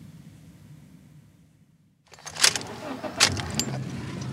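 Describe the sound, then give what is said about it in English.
A car drives and parks in a driveway, a low quiet rumble that fades nearly to silence before louder rattles, clicks and engine noise rise together. “We drive the last couple of blocks to the house and park in the driveway.”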